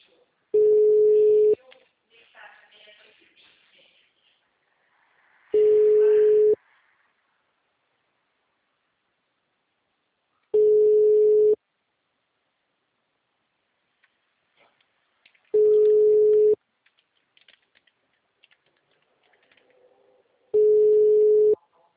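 Ringback tone on a telephone line while placing a call: five steady, evenly spaced hums of about a second each, separated by long pauses with faint background noise in between.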